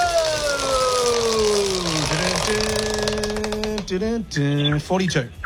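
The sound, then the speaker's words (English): A large prize wheel on a game show spins, giving a quick run of ratcheting clicks from its pointer, with people talking around it. “Big spin or little spin on the wheel? Big spin. That's a big spin. Unanimous big spin. Here we go.”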